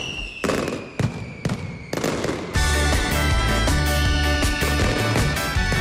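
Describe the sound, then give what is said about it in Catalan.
Mascletà firecracker barrage at the Valencia Fallas in the town hall square: a few separate loud blasts give way to a dense, continuous roar of rapid detonations with heavy low thumps, loud and without voices. “Això que sentiu és el so gravat pel mans in situ de la primera mascletà de les Falles de València d'aquest 2026 a la plaça de l'Ajuntament, disparada diumenge passat per la Pirotècnia Valenciana.”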